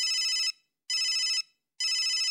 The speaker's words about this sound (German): Und dann klingelte das Telefon von Berat.